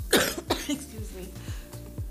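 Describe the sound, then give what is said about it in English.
Harsh choking coughs from a person who choked mid-speech: a couple of loud, sharp bursts near the start, then quieter throaty catches and rasps trailing off. “anyway, excuse me. Sorry for that. I choked live on air.”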